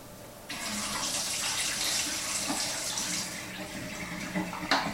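Tap water runs steadily for the final wash of developed black-and-white film in a developing tank, a continuous loud hiss and splash with no talk.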